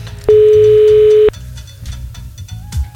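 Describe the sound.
Telephone ring tone on an outgoing call to line 1 at 17:30: one steady, evenly pitched tone lasting about a second, then it cuts off, leaving a low murmur underneath.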